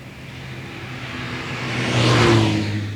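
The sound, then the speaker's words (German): A car engine accelerates on a foggy road, a steady mid-pitched drone that swells louder past the midpoint and then eases slightly toward the end, with no voices. “Im Nebel. Unterwegs im Wagen.”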